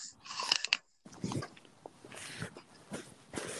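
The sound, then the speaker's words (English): Crunchy raw onion being eaten right into a microphone, with many crisp bites and wet chews at an uneven rhythm and one brief silent gap early on. “That onion sounds scrumptious.”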